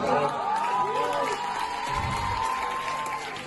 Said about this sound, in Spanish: Yo creo que estos momentos tan especiales se recuerdan sobre todo por el aplauso de toda la gente que hay ahí, claro, porque al ser un lugar público, sí. Esos aplausos, ¿no? Esa gente alborozada al ver que hay una pedida de mano en directo